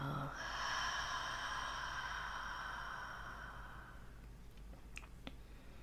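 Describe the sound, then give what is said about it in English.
Slow, deep breathing is heard, mainly one long, soft breath lasting several seconds. It fades into near quiet with a few small clicks. “Continuing to breathe in and out.”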